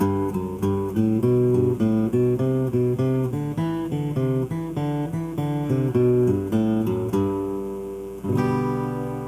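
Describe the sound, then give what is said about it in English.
A Beaumont Rag-style lick exercise is played on strings with alternate down and up picking: many quick, even plucked notes in a steady rhythm, alone and clear, ending on a fuller ringing chord. “This is a little different, and this one is what I consider a Beaumont rag type of lick, type of exercise. So this is going to sound like this.”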